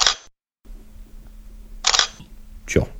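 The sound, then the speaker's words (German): An analog camera being operated gives three sharp mechanical clicks and shutter clacks, spaced apart by quiet gaps, over a faint steady hum. “Schönes Stück. Analoge Kamera.”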